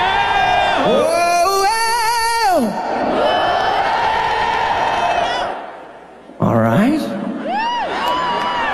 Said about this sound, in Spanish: ¿Quieres escuchar al público esta noche?